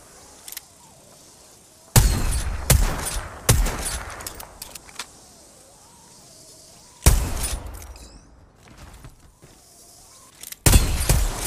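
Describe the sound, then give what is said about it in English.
Video game gunfire in an Apex Legends ranked match: several loud bursts of rapid automatic shots, each dropping away into quieter gaps before the next volley. “I'm taking fire.”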